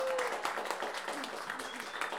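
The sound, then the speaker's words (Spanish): Applause for a cueca singer at a women folk singers' gathering, a steady, dense clapping from the crowd that holds at an even level, with voices faintly over it. “¡Un aplauso para ella!”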